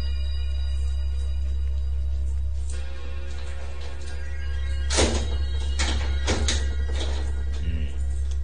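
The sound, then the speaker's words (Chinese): Keys unlocking a storeroom door and the door being opened: a few sharp clicks and thunks in quick succession over a steady low hum. “好在随身带备锁匙，等我开门入去检查下先得。”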